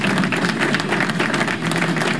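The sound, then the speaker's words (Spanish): Audience applause at a Puerto Rican show, dense, steady clapping that fills the whole stretch at a loud, even level, with a faint crowd murmur beneath and no clear talk. “Aplauso, please. Por favor, aplauso.”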